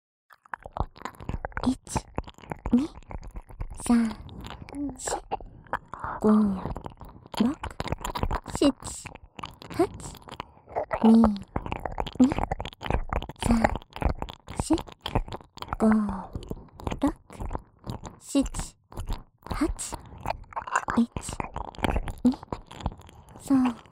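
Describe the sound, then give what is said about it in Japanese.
Wet ASMR ear-licking and mouth sounds close to one ear: a dense, rhythmic stream of smacking clicks and slurps with soft breathy vocal tones, continuing steadily throughout. “まずはこちらの耳元でリズムを取りながら、こちらのお耳をレロレロ舐め回させていただきますね。 それでは行きますよ。”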